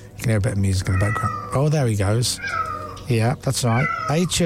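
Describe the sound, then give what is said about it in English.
A domestic cat meows repeatedly at home in the early hours of the night, giving several drawn-out, wavering meows while a person talks over and between the calls. “would you like to hear my cat from about 4:35 this morning? Just after he woke me up,”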